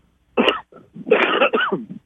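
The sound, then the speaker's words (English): A person coughing: one short harsh burst, then a longer, rougher stretch of raspy coughing. Loud and close, with no talk. “See, now I cough and it's gone.”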